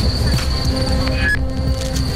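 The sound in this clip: A train departing from a station, with a steady low rumble of wheels and rails under thin, high squeals and tonal whines; no voices.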